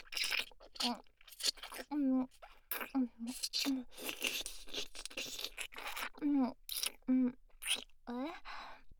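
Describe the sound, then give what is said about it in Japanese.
Wet licking and slurping mouth sounds, close and intimate, in irregular bursts interspersed with short breathy vocal moans. “じゃあ、いろんなバリエーションで舐めてあげます。”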